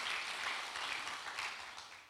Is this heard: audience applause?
yes